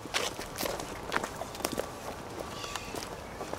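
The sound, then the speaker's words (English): Faint footsteps of people walking through a cemetery toward a gravesite, several soft, irregular steps on the ground. “And let's walk over to his gravesite.”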